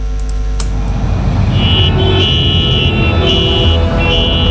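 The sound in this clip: Car horns honking in a traffic jam: several long, steady beeps sound over a continuous low rumble of engines and traffic.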